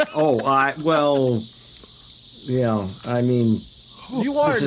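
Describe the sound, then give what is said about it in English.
Cicadas buzzing in dense trees at night near Evanston, a steady, high-pitched drone running continuously beneath people talking. “Evanston cicada. Yeah. Is that really what that noise is”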